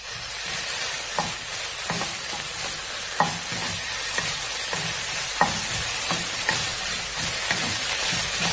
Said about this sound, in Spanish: ahí incorporamos el tomate rallado o la salsa de tomate de bote. Lo dejamos mezclar bien y lo dejamos que se cocine unos 5 minutos.